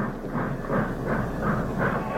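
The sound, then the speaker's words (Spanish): A large passenger-train locomotive approaching gives a dense, continuous rumble with rhythmic pulsing bursts that rise and fall at a steady beat; no whistle stands out. “De pronto se aproxima una locomotora muy grande, de esas que lleva un tren pasajero.”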